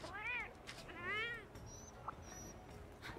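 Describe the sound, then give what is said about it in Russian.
Two drawn-out meows from a cat in a video game, each rising and then falling in pitch, with faint game sounds between them. “Смотрите, а это мой котик.”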